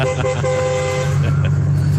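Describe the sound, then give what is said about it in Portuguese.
A car horn sounds while driving past a radio station, giving a brief toot and then a steady, loud tonal blast of about half a second, over a continuous low engine hum. “Passando no momento na frente da Rádio Catarinense, vamos dar aquela buzinada, né? Ó.”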